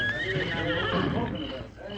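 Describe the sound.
Horse neighing: a loud, long whinny with a wavering, shaky pitch that fills the whole clip and fades slightly toward the end.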